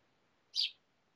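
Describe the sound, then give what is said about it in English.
One short, bright bird chirp sounds from outside a window, a quick high note over a faint, quiet background with no voices. “Does someone have a bird? There's one outside my damn window, and it won't shut up.”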